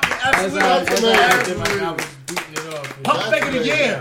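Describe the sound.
Hands clap in a quick run of sharp slaps under ongoing conversation, with people talking over the clapping the whole time.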